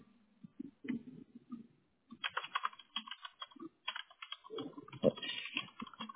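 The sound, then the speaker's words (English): Keyboard typing on a computer keyboard during a phone call: many quick, irregular clicks in uneven bursts, with a short pause partway through and no talking. “It would help if I could type today.”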